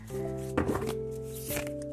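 Tarot cards being shuffled make two brief, crisp riffling bursts, the first longer than the second, over a steady tonal drone.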